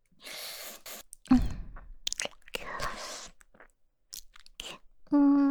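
Crunching and chewing of an original-flavour snack: one sharp crunchy bite, then softer chewing and breathy mouth sounds, all quiet.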